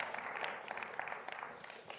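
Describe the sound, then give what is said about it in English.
Audience applause for a church drama team: a dense, steady patter of many hands clapping that runs throughout, fairly faint and even in level. “Round of applause for the drama team.”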